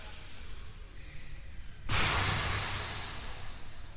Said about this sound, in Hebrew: קחו מלא מלא אוויר. ונשוף. עוד פעם.